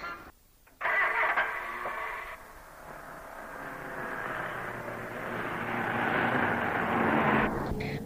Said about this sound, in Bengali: আসলে ঢাকার রাস্তায় গাড়ি চালাতে গেলে একটু সাবধানে চালাতে হয়।